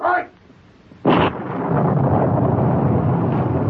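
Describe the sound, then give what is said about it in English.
A powder blast in a mine in a radio drama: a short burst, then a louder sharp blast that rolls straight into a sustained, heavy rumble of loosened shale tumbling down. “The blast and powder loosened some more shale. It's tumbling down on the town.”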